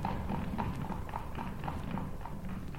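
Horse hooves clip-clop steadily as a lineika, a horse-drawn carriage, sets off, a regular trotting rhythm that stays faint throughout, with no voices.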